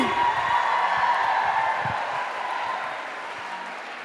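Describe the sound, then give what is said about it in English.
An audience applauds and cheers as a guest walks out on a dating-app makeover show: a dense, steady wash of clapping that eases slightly toward the end, with a voice talking over it. “Give it up for Leah, everybody!”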